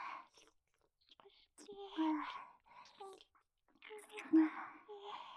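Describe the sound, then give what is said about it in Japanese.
Slow eating and chewing: soft, wet mouth sounds and gentle bites come in a few separate bursts with quiet gaps between them, alongside whispered voices. “気持ちいいよって褒めてもらった 人ばっかりなので、ゆっくり食べますね。”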